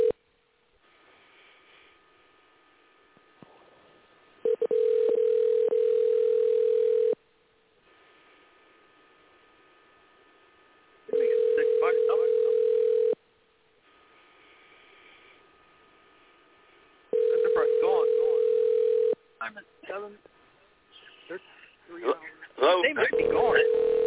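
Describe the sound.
Telephone call tones sound as a call is dialed out: three long, steady, even-pitched tone bursts, each about two seconds, separated by quieter stretches of low hiss, with scattered irregular noises near the end.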